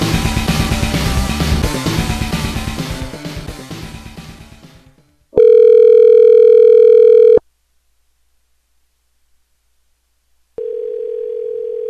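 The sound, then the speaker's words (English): An answering machine tone sounds on a heating and cooling business's line. A fading greeting gives way to a loud, steady, pure beep of about two seconds. After a pause of silence, a second quieter, steady tone follows. “At the sound of the tone, leave your name, a brief message, and your phone number, and we will call you back.”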